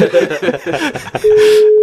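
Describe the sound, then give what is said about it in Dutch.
A telephone call being placed to someone's wife: brief voices and laughter give way to a steady, single-pitched telephone tone that holds unbroken to the end. “Ja, maar zullen we dan uh, jouw vrouw ook even bellen?”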